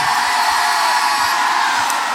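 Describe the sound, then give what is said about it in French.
A festival concert audience cheers and shouts in a dense, loud, steady roar that fills the whole stretch without letting up. “Et faites aussi un maximum de bruit pour RTL2, bien sûr, bien sûr.”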